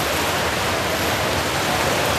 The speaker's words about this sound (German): ihre Bahnen im Wasser.